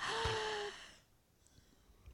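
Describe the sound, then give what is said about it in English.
A worship service audience taking a deep breath together. A single faint, breathy inhale lasts about a second and fades into quiet. “All right, now take a deep breath.”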